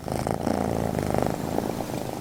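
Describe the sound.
A cat purring in a steady, rhythmic rumble that pulses evenly and holds at a moderate level from start to finish, with no other sounds.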